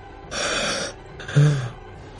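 A sudden gasping breath as someone starts breathing again: a long, airy inhale, then a second, shorter gasp with a low, throaty voiced edge.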